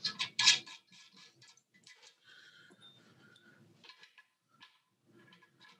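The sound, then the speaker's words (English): Metallic clicks and ticks as quarter-inch nuts are loosened on a banjo's tension hoop, the banjo overhanging a table. A few louder clicks open, then faint, sparse ticking continues. “So we'll slowly start taking those off. Again, a quarter inch nut. I like to overhang it on the table and slowly work my way around.”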